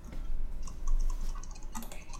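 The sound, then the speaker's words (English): Keyboard typing as a name is typed out: many quick, light clicks in an irregular rhythm, fairly faint, with no talk over them. “A second, let me just type it out before I say it.”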